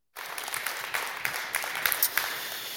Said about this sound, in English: Let's put our hands together and give him a warm Harvest Ottawa welcome.